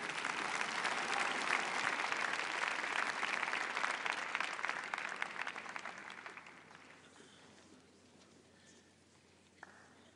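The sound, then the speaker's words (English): Applause from a debate audience fills the opening seconds with dense, even clapping, then thins and fades steadily to near silence, with one last isolated clap at the end. “Un aplauso, por favor.”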